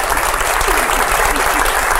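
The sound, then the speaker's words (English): Enthusiastic audience applause for an actor welcomed onto a talk-show stage, with dense, loud clapping holding steady throughout and a voice faintly mixed in. “Wow, do you ever get tired of that? Does an actor ever get tired of applause?”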